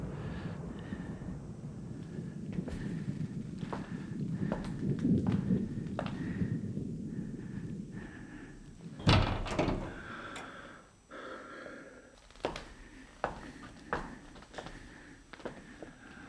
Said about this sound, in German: Könntest du das Fenster schließen?